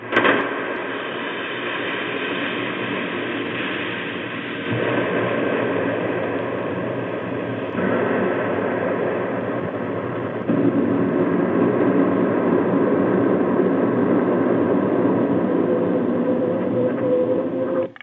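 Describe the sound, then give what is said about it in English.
An approaching train, played over a telephone line, comes through as a thin, band-limited rumbling roar that holds steady and then swells louder in a couple of steps toward the end, with no voices. “and then like you hear the train coming. I can give you this sound on the telephone if you want to hear.”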